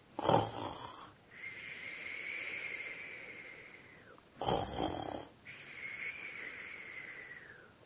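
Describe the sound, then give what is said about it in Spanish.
Soft snoring in two slow cycles, each a rough, breathy snort followed by a long, thin whistling tone that tapers off, faint and alone. “donde vivía Tony y solo pudo escuchar un suave ronquido”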